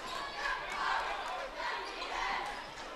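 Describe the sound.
A basketball is dribbled on the court during a game, with bounces blended into a steady roar of crowd noise and a commentator talking over it.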